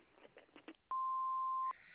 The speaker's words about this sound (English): Please leave your number at the beep and we'll get back to you.